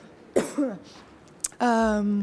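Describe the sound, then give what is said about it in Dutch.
A person coughs during an interview: two sharp coughs separated by a pause, followed by a steady voiced sound. “Ondanks dat ik veel hoest, sorry.”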